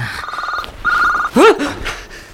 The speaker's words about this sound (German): Dein Handy.